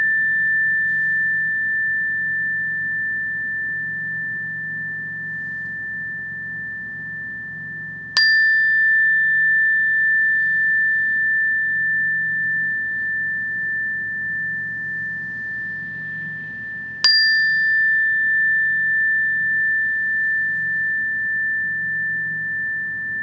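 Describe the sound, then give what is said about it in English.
Meditation chimes ringing with a clear, steady high tone that sustains throughout. Two fresh strikes land several seconds apart, each renewing the bright ring over a faint low hum. “shift some of your awareness to your hearing sense and see if you can listen to the full of these meditation chimes”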